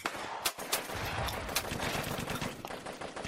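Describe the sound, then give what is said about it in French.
Gunfire from automatic weapons in a war zone, with grenades and artillery also mentioned, heard as a few sharp cracks over a dense, continuous rumbling clatter, fairly faint overall. “Les bruits de grenades, d'artillerie, d'armes automatiques se rapprochent.”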